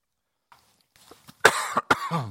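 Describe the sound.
Coughing and throat clearing from a preacher with something stuck in the throat during a sermon: a faint catch, then a few sharp, loud coughs ending in a short voiced rasp.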